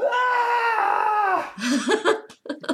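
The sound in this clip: A voice imitates a prisoner's constant scream: a sustained, wavering, strained vocal tone held for about a second and a half, then breaking into short, choppy vocal sounds.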